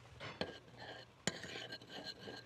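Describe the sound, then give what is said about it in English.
A spoon stirring salad dressing ingredients with a little salt in a bowl, soft scraping broken by two sharp clinks against the bowl, all fairly quiet. “And then we just stir this up.”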